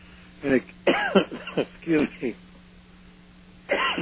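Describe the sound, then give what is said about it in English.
A person coughs several times in quick succession with harsh throat clearing, falls silent for a moment, then coughs once more. “I started to come down with a cough earlier this evening.”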